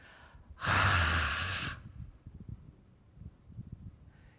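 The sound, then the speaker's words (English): A loud, breathy rush of air, a person's breath standing in for the Hebrew name of God spoken without vowels. It lasts about a second, then gives way to faint, low rustling breaths. “Every time we breathe, we say the name of God. And every time we breathe, we take in the Spirit of God.”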